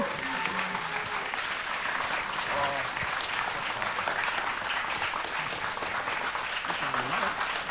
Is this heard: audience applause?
yes